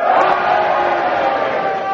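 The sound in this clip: An audience shouts together on cue, cheering and booing at once in a sustained wall of massed voices. The sound is loud and fairly steady, swelling slightly at the end.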